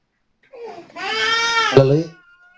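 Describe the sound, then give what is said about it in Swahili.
A baby whimpers briefly, then breaks into a loud, wailing cry that holds for about a second before stopping. “mama yake mtoto yeye angalie, kwani analia, nenda kumwangalia, mtulize, yani mtulize, nenda kumtulize, ujue kwani analia.”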